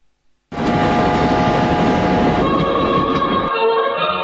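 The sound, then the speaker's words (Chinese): A passenger train running from Hangzhou to Beijing gives a loud, steady rumbling roar that begins abruptly and holds constant, with faint humming tones layered on top. “搭上了从杭州开往北京的列车”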